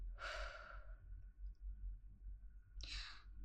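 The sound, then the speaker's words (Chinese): Deep, slow breathing, two soft, airy breaths separated by a long pause, faint and quiet over a low steady hum. “深呼吸，吸气，吐气，吸气，吐气。”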